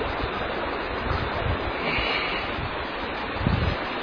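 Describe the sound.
A small waterfall flows over a gravel-bottomed stream used as a spawning ground, making a steady, dense rushing wash throughout, broken by a few low, dull thumps of wind buffeting.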